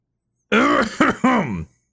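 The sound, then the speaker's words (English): A person coughs and clears their throat in three rough, voiced bursts. The first is the longest and the last two come in quick succession, then silence. “I had to get all of my heresy coughs out before we get really into this.”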